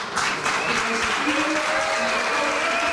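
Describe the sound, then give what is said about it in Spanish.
Applause and whistling at a tense town council plenary in Griñón, Spain, as a new mayor takes office. Dense, steady clapping runs throughout, with sustained whistle tones laid over it. “entre aplausos, pitos y abucheos. Así ha recibido el bastón de mando María Antonia Díaz, que desde hoy es la nueva alcaldesa de Griñón.”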